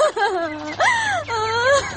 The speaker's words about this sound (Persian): خو دیگه تو چرا گریه میکنی؟